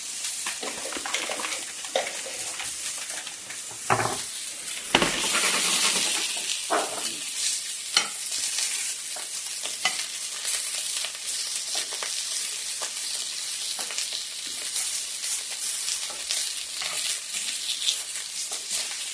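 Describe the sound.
Butter sizzles loudly in a frying pan as it is basted over the food with a sprig of thyme. The crackling frying sound is steady and continuous, with a few brief louder bursts and no voices.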